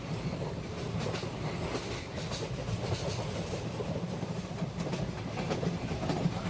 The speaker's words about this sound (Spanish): ya está pasando el tren de medianoche, lo cual significa que el programa de hoy ha terminado.